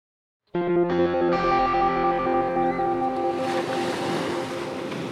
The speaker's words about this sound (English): Ah, that's the sound of the Pacific Ocean.